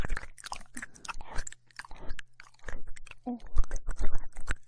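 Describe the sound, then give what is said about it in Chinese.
Crisp crunching and chewing of food while eating: many sharp bites and crunches in an irregular rhythm, fairly loud and close, with moist mouth sounds between them. “让我吃掉，让我吃掉你，好不好？”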